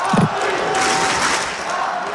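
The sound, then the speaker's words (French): Crowd roaring with joy as Paris supporters at Roland-Garros react to the announcement of PSG's Champions League final win; a loud, sustained wall of cheering and shouting. “Mais le match du Français a été marqué par l'éclat de joie du public de Roland-Garros. À l'annonce de la victoire du PSG, les supporters parisiens présents à la porte d'Auteuil suivaient assidûment la finale de la Ligue des Champions.”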